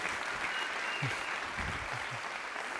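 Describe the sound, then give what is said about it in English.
Audience applause welcoming a guest at a Northern Michigan event: dense, continuous clapping from many hands that holds steady throughout. “let's have a big Northern Michigan welcome”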